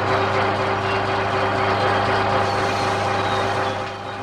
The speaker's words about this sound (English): He's using a torch and he's brazing up and he's repairing a lamp. And that's the sound of the torch being used.